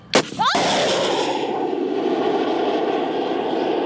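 A shoulder-fired surface-to-air missile launches with a sharp crack, a second burst following almost at once, then a loud, steady rushing roar that holds without fading.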